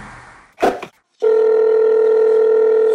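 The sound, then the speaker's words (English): Telephone tone on a call involving a private number: a short burst of noise and a brief silence, then a loud, steady continuous tone that holds to the end. “And he keeps calling from a private number.”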